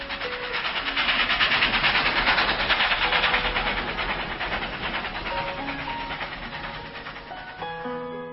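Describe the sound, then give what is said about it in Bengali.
A Martin Company train running out of Howrah gives a continuous, dense rumbling roar with faint rhythmic clatter. It eases slightly in loudness toward the end. “অনেক কষ্টে বাড়িতে রাজি করিয়ে এক সকালে হাওড়া ময়দানে এসে চেপে বসলাম মার্টিন কোম্পানির ট্রেনে।”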